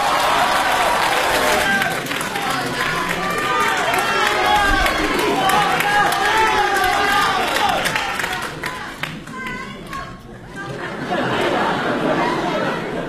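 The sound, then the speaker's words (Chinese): Warm applause from the audience as two performers take the stage at a comedy show, dense clapping with voices chattering over it, dipping briefly near the end before swelling again. “这个感谢您各位。一上来您就报以热烈的掌声。”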